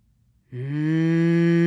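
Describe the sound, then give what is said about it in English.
A cow lows in one long, steady, low moo. It starts about half a second in and holds loud and unbroken to the end, with no talking. “The hot wind never stopped whizzing by, and the cattle never stopped mourning.”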